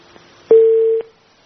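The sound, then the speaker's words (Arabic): A telephone tone after a dropped call sounds once: a clear, steady, mid-pitched electronic beep lasting about half a second, alone against near silence. “الاتصال انقطع للاسف.”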